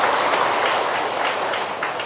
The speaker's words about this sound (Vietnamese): chúng tôi xin quỳ cho một tràng pháo tay nữa